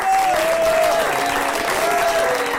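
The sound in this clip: Audience applause at a stage show, from an early-2000s recording: dense, steady clapping from a large crowd runs evenly through the whole clip without a break.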